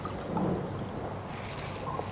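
Braised five-spice broth is poured into a spring roll filling of sliced Chinese sausage strips, making a steady, soft splashing wash that runs throughout without talk.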